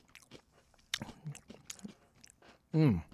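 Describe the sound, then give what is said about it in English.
Someone chews salty potato chips with a few crisp, crunchy bites and quieter chewing between them, then lets out a loud, drawn-out appreciative hum. “But these are good salty potato chips. Mmm. Mmm. Those are good.”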